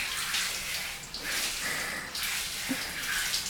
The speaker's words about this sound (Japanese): お湯柔らかに流してるから、こうして